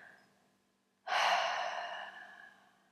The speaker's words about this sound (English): And exhale, let it out.